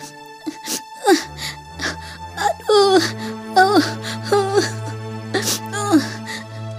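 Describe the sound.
A child cries and wails in repeated high, quavering bursts that bend downward in pitch, with short gasping breaths between them. A low, steady tone sounds underneath most of the crying.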